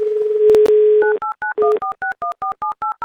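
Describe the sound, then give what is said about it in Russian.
Telephone dialing for a call to a listener in the Amur region during a radio money game: a steady dial tone with a couple of clicks, then a rapid run of many short, evenly spaced keypad beeps at shifting pitches. “Давайте звонить Евгению.”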